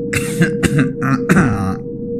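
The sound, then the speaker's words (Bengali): A throat clearing in a few rough, raspy coughing bursts, loud and alone, over a steady low hum. “এবারে professor একটু কেশে নিয়ে বললেন,”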